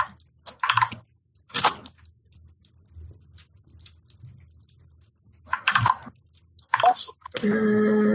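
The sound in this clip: Typing on a computer keyboard comes in a few short, scattered bursts of clicks, fairly faint, separated by quiet gaps.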